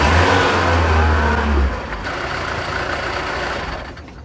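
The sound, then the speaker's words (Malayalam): A bus engine roars loudly and then drops abruptly as the bus suddenly stops on the road, leaving a lower rumble and hiss that fades toward the end. “അയ്യോ, വണ്ടി പെട്ടെന്ന് നിന്നല്ലോ, എന്തു പറ്റിയോ ആവോ. Conductor, എന്താ വണ്ടി നിന്നത്?”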